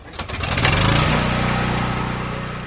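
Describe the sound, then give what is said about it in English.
A generator being started at a garage demolition site, to power the saws that cut up the collapsed roof. It sputters briefly, catches with a rising pitch, then settles into a loud, steady, buzzing engine drone. “After the dust settles, a worker starts a generator. It will power the saws the team uses to cut the roof into smaller pieces.”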